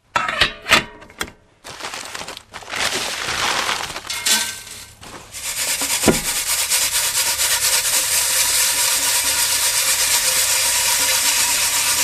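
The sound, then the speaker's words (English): Blackwood seed is sieved through sieves at a native nursery in the Derwent Valley town of Hamilton. A few sharp clinks and scrapes open, then a continuous dry, gritty rattling hiss of shaken seed. “I'm sieving some blackwood seed at the moment.”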